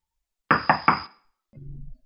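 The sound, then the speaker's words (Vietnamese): Three quick, sharp knocks on a door in an even rhythm, followed by a brief low rumbling sound. “Tiếng gõ cửa khiến anh hoảng loạn, ve vào góc bàn.”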